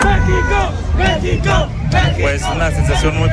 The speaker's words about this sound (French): Tout ce dont on pouvait rêver, les sombreros, les drapeaux vert, blanc, rouge, des supporters déjà surexcités à l'heure du petit déjeuner ici.